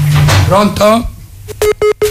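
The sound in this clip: Telephone beeps signal an incoming call on a phone line, with three short, evenly spaced mid-pitched tones following a stretch of talk.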